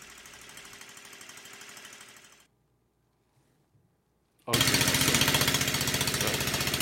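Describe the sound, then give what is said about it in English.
A hydrogen-fuelled engine runs on its own after the motor is switched off. A steady, rough running noise fades into near silence, then returns loud as a fast, rhythmic chugging that holds to the end. “If you listen carefully, you can hear a change in the sound. Now we're going to turn off the motor, and it'll be running all on its own hydrogen power.”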